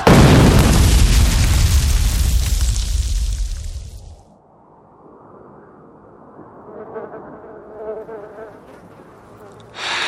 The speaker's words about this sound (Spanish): En eso empezaron a caer cañonazos por todos lados.